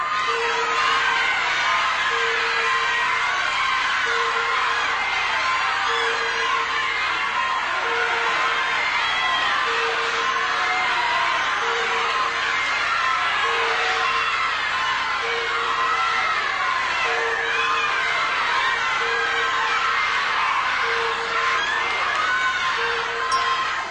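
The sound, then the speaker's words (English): A game show studio audience cheers and shouts continuously, rising to its feet, a loud sustained roar of whoops and yells with a steady beeping tone pulsing at regular intervals underneath. “She stopped it. And I'll tell you, she brought this audience to its feet.”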